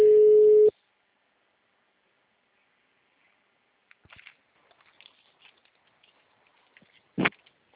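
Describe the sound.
A telephone ringing tone sounds as a call is placed: one loud, short, steady beep, followed by near silence with a few faint clicks and one brief thump.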